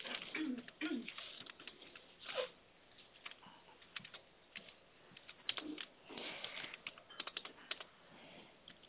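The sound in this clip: Quiet typing on a computer keyboard as a 400-gram quantity is entered into a grocery order, with many irregular keystrokes in short bursts and pauses.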